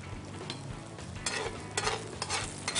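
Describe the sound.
Fried rice sizzling in a pan as its liquid evaporates: a steady, bright frying hiss with faint stirring scrapes and small crackling bursts, with no voices.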